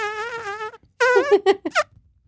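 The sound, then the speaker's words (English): A voice imitates a fart by buzzing the lips: one short sustained buzz, a pause, then a longer raspy burst that breaks into several sputtering bits. “can you do the fart noise while I like pretend like I'm burping?”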